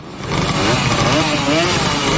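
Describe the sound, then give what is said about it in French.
Old East German two-stroke mopeds and motorcycles (Simson, Schwalbe, MZ) running together, a loud, continuous buzzing engine roar with a slightly wavering pitch throughout. “Des centaines de vieilles mobilettes et motos est-allemandes, Simson, Schwalbe et autres MZ démarrent. À cette pollution d'un autre temps s'ajoute celle des Trabants, les fameuses voitures pétaradantes au moteur à deux temps.”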